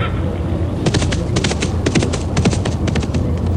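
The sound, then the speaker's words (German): Horses galloping on a meadow produce a rapid, irregular clatter of hoof beats over a steady low rumble. “Auf dem Weg sehen sie Kühe und auch Pferde, die auf der Wiese galoppieren.”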